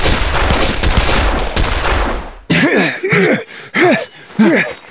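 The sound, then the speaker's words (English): Gunshots fired from cover among trees: several sharp, loud blasts in quick succession, each with a broad ringing decay, followed by a few short tonal cries. “Fire a couple of shots at him and let's go.”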